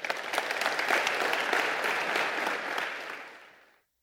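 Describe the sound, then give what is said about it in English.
Audience applause in a church welcoming a speaker, a dense patter of many hands clapping that holds steady, then tapers and fades out to silence at the end. “Orchard, would you put your hands together and welcome this morning Ian Cron.”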